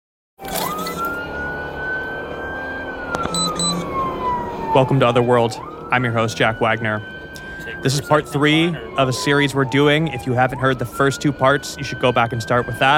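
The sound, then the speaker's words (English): A police car siren wails up and down on body camera audio as officers rush to a call. A man talks over the steady, swooping tone throughout. “What you're hearing right now is the actual body cam audio of the police officers who are rushing to Eilish's house after being dispatched by 911.”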